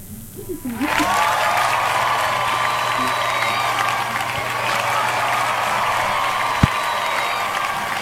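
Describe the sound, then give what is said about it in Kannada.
Applause from a studio audience honouring quiz participants who sent in correct answers: dense, sustained clapping rises after a brief quiet start and stays loud and steady for about seven seconds. “ಸರಿಯಾದ ಉತ್ತರವನ್ನು ಕಳುಹಿಸಿದ ನಮ್ಮೆಲ್ಲ ಕೇಳುಗರಿಗೆ ನಮ್ಮ ನಿಲಯದಿಂದ ಪ್ರೀತಿಯ ಚಪ್ಪಾಳೆ.”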